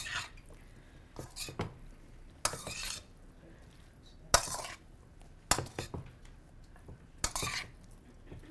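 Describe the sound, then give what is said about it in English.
A utensil stirs food in a pot, with scraping clinks and clatters in a few irregular bursts of varying loudness. No one speaks. “Stir it all up.”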